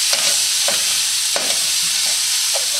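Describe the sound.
A ladle stirs and scrapes food frying in a hot wok, with several separate scraping strokes over a constant, loud, hissing sizzle.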